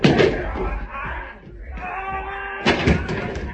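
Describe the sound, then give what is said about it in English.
Heavy thuds and bumps as two people fall down a set of front steps during a fight, with a loud jumbled burst at the start and another near the end. “They've fallen down the front steps.”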